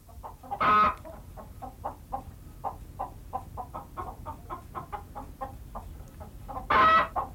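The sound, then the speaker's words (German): A hen cackles after laying an egg: a long run of evenly paced, rhythmic clucks, with one loud, harsh squawk near the start and another near the end. “Julchen hat ein Ei gelegt! Julchen? Ich hör's! Wie man einen Huhn Julchen nennen kann.”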